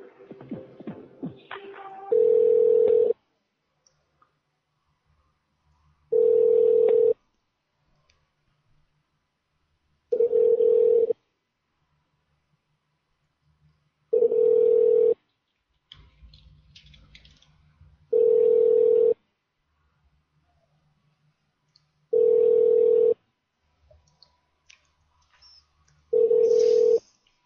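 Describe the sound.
Ringing on a telephone line as a call is transferred to a hotel's line: seven steady, long tones of the same pitch repeat at regular intervals of about four seconds, with faint rustling and handling noise in the gaps.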